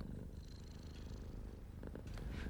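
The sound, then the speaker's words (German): Purring of a tired old cat, a soft, steady, low rumbling purr that runs throughout, faint and heard without any talking. “Während ich mir so meine Gedanken machte, schlich sich eine müde alte Katze ins Wohnzimmer und legte sich neben Frau Diepholz.”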